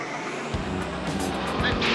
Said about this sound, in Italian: Devo passare fra quelle due macchine. Ti lascio i comandi. Inventati qualcosa.